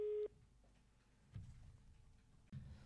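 A telephone call being placed: one short steady beep opens, then low crackling line noise with two dull thumps.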